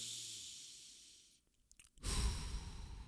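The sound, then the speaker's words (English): A person breathes in and then out as a breathing demonstration: a long, soft airy breath, a short pause, then a louder, rougher breath. “Breathe in. Breathe out.”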